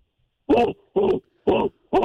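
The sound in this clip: A human voice imitates a dog growling in four short, rough, voiced bursts, evenly spaced with brief silences between them.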